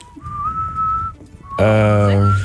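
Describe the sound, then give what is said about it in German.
Whistling from a rock song: a steady, clear whistled melody, then a louder, sustained harmonic tone enters and holds to the end. “Da pfeifen die.”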